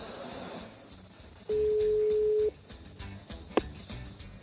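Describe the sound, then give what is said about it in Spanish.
The ringing tone of an outgoing telephone call, one steady, sustained mid-pitched beep lasting about a second, heard over low background voices. “vamos a ver ya si escuchamos ese tono de llamadas y tenemos al ganador con nosotros”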